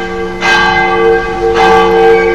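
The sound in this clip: Church bell ringing for morning mass, two strong strikes, each followed by long, shimmering, sustained overtones that blend together and fill the whole stretch.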